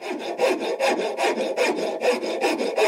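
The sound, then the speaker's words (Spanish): A handsaw cuts through wood in steady back-and-forth strokes, each a raspy, scratchy rush of bright noise that swells and fades in an even rhythm, with no talk over it. “¿Sabes qué ruido es ese? ¡Serrucho! ¡Mamá está cortando madera!”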